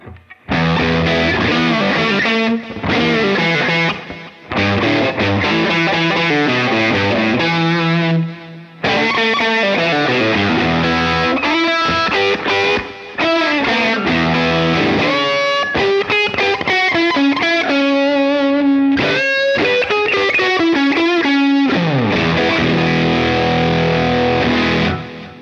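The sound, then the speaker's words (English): Electric guitar with a single coil pickup runs through a high gain distortion pedal in its hot setting with the tone control turned for maximum treble, playing loud, dense, sustained chords and notes continuously with only brief pauses between phrases. “So even though we have a huge amount of gain because the gain setting is pretty high and I am in the hot setting, it still retains this single coil kind of tone”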